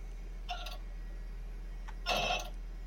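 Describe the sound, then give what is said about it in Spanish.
An old 4 GB computer hard disk drive running badly: a couple of brief, scratchy clicking bursts rise over a faint, steady low hum, with no talk. “Ese disco duro no suena muy bien, ¿eh? Es de 4 gigas”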